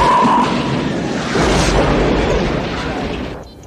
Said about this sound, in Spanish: Mire eso, almirante. Interceptaron uno de los misiles, caballeros.